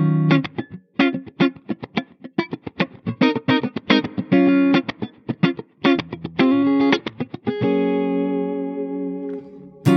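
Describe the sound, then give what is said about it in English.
A guitar part plays many short, choppy, distorted stabs in a tight rhythm, then one sustained chord rings out with a lingering reverb tail. The reverb is applied to just that one element. “send a little bit of a guitar part to a reverb and then turn it off so that the reverb only affects one little element.”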